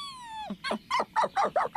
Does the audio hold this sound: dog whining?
yes